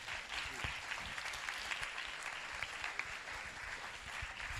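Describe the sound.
Audience applause welcomes a speaker who developed a happiness course: a faint but steady, even patter of many hands clapping for about four and a half seconds, with no talk over it.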